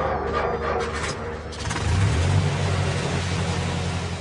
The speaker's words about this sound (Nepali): आज हामी बस चढेर नवलपरासी जाँदैछौँ।